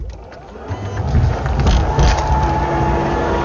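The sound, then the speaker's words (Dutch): A car tailgate being opened produces a continuous, rumbling mechanical whir that swells after the first second and then holds steady and fairly loud. “dit is het geluid van het openen van de achterklep van onze auto”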